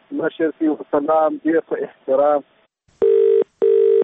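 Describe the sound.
Telephone ringing: two identical electronic ring tones, evenly spaced, each short, steady and fairly loud, following a few moments of speech.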